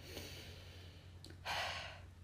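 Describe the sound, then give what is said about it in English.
A single deep breath: a soft, airy rush of breath that swells briefly, faint over a low steady hum. “Whenever this happens, just take a deep breath.”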